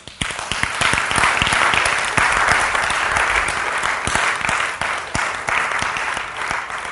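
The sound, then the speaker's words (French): A church audience applauding, loud, dense and steady clapping that fills the whole stretch without a break or any speech. “Acclamez le Saint-Esprit.”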